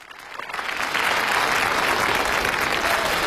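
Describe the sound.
Audience applause greets comedians at a Spring Festival crosstalk performance with an auction theme. The clapping swells during the first second, then holds as dense, even applause with no voices over it.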